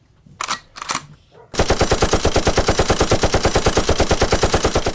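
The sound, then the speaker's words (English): Machine gun fire rings out as a loud, rapid stream of evenly spaced shots. It continues without a break after a couple of brief, separate noises at the very start. “Let's get these machine guns.”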